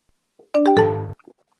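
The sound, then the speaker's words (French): The MSN Messenger new-message notification chime, a brief electronic jingle of two quick notes running into a longer ringing tone, under a second long, clear and alone. “c'est le message, c'est messagerie MSN.”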